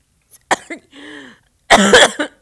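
Coughing from someone whose breath went down the wrong way: a short cough and a brief strained throat sound, then a longer, heavier burst of harsh, loud coughs, with no talk.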